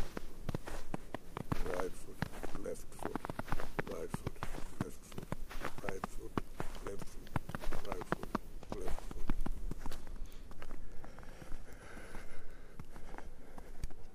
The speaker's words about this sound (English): So here is a recent walk in the snow.